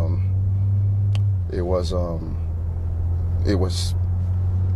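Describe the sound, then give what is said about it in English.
Steady low rumble inside a moving car runs unbroken through an interview recorded while driving, with people talking intermittently over the constant hum. “They were in a car. That's what you're hearing.”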